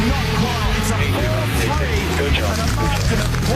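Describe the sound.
A Monster Energy Ford Mustang race car engine drones in a continuous low roar during a motor race, running steadily beneath excited commentary for the whole stretch.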